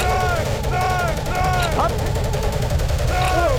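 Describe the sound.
Battlefield gunfire in a war: a dense, continuous roar of rapid, overlapping shots that stays loud and steady throughout.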